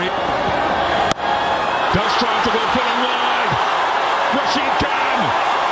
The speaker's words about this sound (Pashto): په لوبغالی کې د ګجرات ټایټانز لوبډلې د بریا له امله د مینوالو د خوښۍ شور.